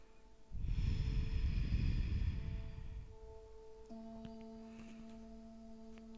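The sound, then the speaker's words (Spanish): Quiet breathing in and out through the nose during a guided relaxation exercise: one long, soft, airy breath lasting a few seconds, then fading into a faint sustained tone. “Continúa inhalando y exhalando por la nariz.”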